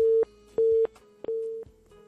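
Telephone line tone after a dropped call: a steady mid-pitched beep repeating in a regular on-off pattern, a few pulses heard alone with no voices.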